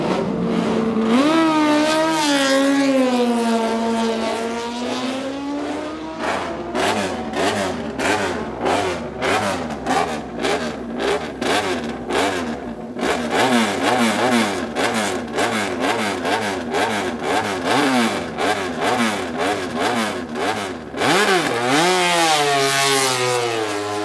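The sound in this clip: Racing motorcycles set off in a road race. Loud, overlapping engine roars rev hard throughout, with many quick sweeps of pitch up and down as the machines accelerate.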